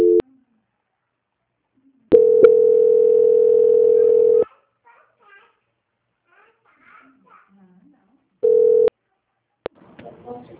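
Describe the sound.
A telephone tone plays while a call is being transferred: a steady mid-pitched tone sounds in a few separate stretches, the longest lasting about two seconds. Faint talk is heard between the tones.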